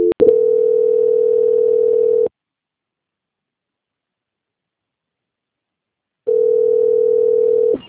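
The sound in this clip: A telephone tone plays during a call transfer: two long, steady, mid-pitched tones, each roughly two seconds, separated by about four seconds of silence, with a brief click at the start.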